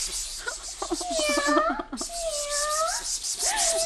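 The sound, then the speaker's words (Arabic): A hungry cat meowing, a few drawn-out, wavering cries that rise and fall in pitch. They are fairly loud over a constant background hiss. “نعم، ولكن القطة تبدو جائعة، تقول نياو”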